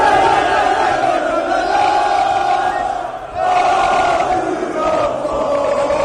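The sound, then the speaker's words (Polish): Thousands of excited football fans with flares loudly chant and sing at an airport to welcome Mohamed Salah, a dense, steady roar of many voices with chant-like swells that continues throughout. “Na lotnisku bowiem witały go tysiące podekscytowanych fanów z racami i głośnymi śpiewami.”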